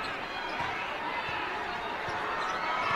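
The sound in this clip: Basketball dribbled on a court during a game, soft repeated bounces under steady, dense crowd noise that fills the whole clip.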